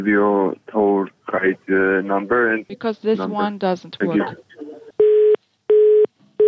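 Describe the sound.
A telephone busy tone sounds after a call is cut off: steady, even-pitched beeps, two full and a third cut short at the end, following a stretch of speech.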